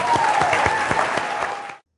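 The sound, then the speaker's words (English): Audience clapping at a worship gathering: a dense, steady patter of many hands holds at an even level, then fades out quickly at the end. “Give the Lord a big clap.”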